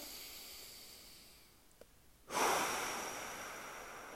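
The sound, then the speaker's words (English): A full, deep exhale out of the mouth during a guided breathing exercise: one long, breathy rush of air that begins about halfway through, after a quiet stretch, and slowly fades toward the end. “A full exhale out of the mouth. Allow that exhale to be a deep release”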